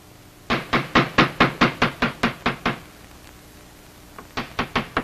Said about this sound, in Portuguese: bate na porta da frente